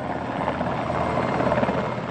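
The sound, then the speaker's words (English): U.S. Navy military helicopters fly relief missions over Aceh's coast, their rotors beating in a dense, steady fluttering chop with an even engine roar underneath and no voices. “these helicopters won't be able to get loaded and go out and do food drops to the West Coast.”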